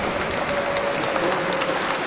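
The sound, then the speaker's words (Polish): Warm applause for a bishop at a parish gathering, a dense, even wash of many hands clapping that holds steady and fairly loud from start to finish, with a faint steady tone running beneath. “brawa dla księdza biskupa, gorące brawa.”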